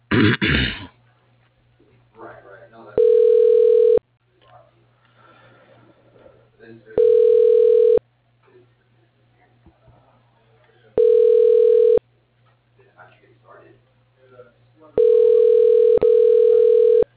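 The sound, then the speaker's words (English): Ringing tone heard while a phone call is transferred: four steady, even beeps, each roughly a second long and spaced about four seconds apart, over a faint hum, with a short rough throat noise at the start. “You are being transferred to Reed Marsh.”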